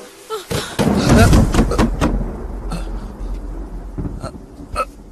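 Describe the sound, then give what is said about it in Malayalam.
Knocking on a room door: a cluster of sharp, loud knocks, then a few more spaced raps, all over a busy background. “രണ്ടാം തവണയും മുട്ടുന്നു. മൂന്നാം തവണ മുട്ടുന്നു.”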